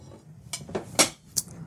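Metal cutlery clinks as a knife is taken out in a kitchen, ready to cut vegetables while cod fries. A few short, sharp, bright clinks ring out separately over a low background, with no talk.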